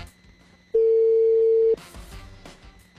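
Telephone ringback tone on a call to a radio station: one steady, loud beep lasting about a second against faint line noise, followed by brief clicks and muffled sounds.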